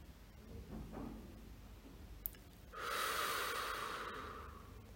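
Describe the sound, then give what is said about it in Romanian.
Deep, slow breathing during a relaxation exercise: a soft airy breath comes first, then after a short gap a longer, louder breath flows steadily for a couple of seconds. Faint throughout. “Inspir adânc și mă relaxez.”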